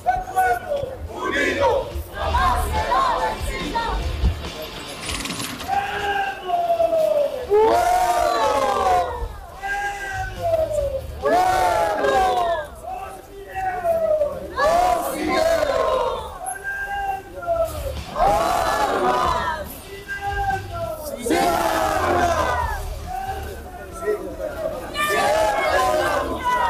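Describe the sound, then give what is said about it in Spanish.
A crowd of protesters from social sectors and a workers' union marches through a street in a Bolivian mobilization, with loud, rhythmic shouted chants rising again and again over a steady crowd murmur. “llegó la movilización de diferentes sectores que han descendido desde Ciudad del Alto, sectores sociales, Distrito 7, Distrito 8, Distrito 5, entre otros también, como le anunciábamos más temprano. Escuchemos.”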